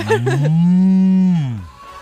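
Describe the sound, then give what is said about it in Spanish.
A person imitates a cow mooing for a dairy workers' day greeting, holding one long, low, droning note that sags and fades at the end. “¿Quién hace un mugido de vaca mejor? A ver, dale.”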